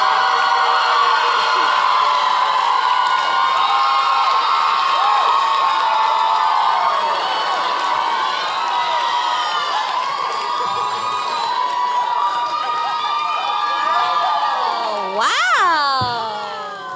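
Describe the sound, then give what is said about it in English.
A live audience in Orlando cheers and whoops in welcome, loud and sustained. Shrill shouts and whistles rise through the noise, with a sharp high burst near the end. “Hey, Orlando, let's give a warm welcome to Kenyon, Lucy, and Amanda, the Wine and Crime Gals.”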